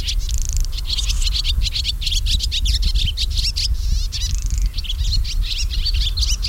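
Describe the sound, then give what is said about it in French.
A melodious warbler sings in bushes, a yellow-and-brown songbird with a fast, chattering, scratchy song. Rapid high notes tumble out loud and almost without pause, with a low rumble underneath. “On a l'Hippolaïs polyglotte, il n'y a pas très longtemps qu'il était arrivé, c'est ce beau chanteur jaune et marron qui chante dans les buissons et qui a ce chant tout à fait grinçant et tout à fait facile à reconnaître.”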